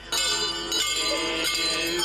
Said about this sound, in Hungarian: A zarándokok a csengettyűk ritmusára menetelnek, imádkozva és énekelve végig a falvakon.